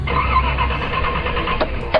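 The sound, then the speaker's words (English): A car engine fails to start because the battery was drained by an air pump left plugged into the cigarette lighter, giving a steady, strained whirring drone and a couple of brief clicks near the end. “What's wrong with the car? Is the battery dead?”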